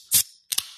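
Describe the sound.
A Coke Zero can cracking open: a sharp metallic snap with a bright hiss, then after a short gap a second quick double pop and fizz that trails off, loud against silence.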